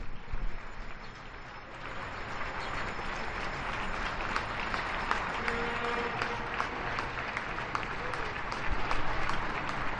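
Neighbours applaud from their windows at eight o'clock during the quarantine lockdown, a dense, steady wash of many hands clapping at once, sustained and even throughout and swelling slightly near the end.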